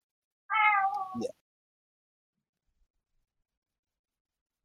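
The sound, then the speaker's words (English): A cat lets out one loud, clear meow that drops lower in pitch as it ends, followed by several seconds of near silence. “Yeah, it's a cat.”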